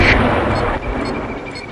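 Artillery fire striking its target: a heavy, continuous, rumbling roar that stays loud throughout and dips slightly partway through.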